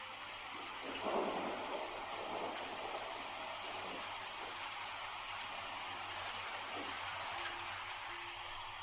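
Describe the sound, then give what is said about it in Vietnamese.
Heavy rain pours down in a thunderstorm, a dense, steady hiss layered over a low continuous thunder rumble that swells briefly near the start. The whole scene stays fairly quiet and even. “Tiếp theo một trận mưa lớn sầm sập đổ xuống.”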